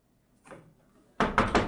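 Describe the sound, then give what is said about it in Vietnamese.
Hurried banging on a door outside the main house: a faint thud at first, then a burst of a few loud, dull knocks close together at the end. “thanh âm hốt hoảng của Quế Duyên kèm theo tiếng đập cửa vang lên bên ngoài nhà chính”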